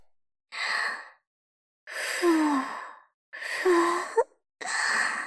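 Breath blown onto the listener: four long, airy puffs with breathy sighing, a couple carrying a faint voiced moan, separated by short silences.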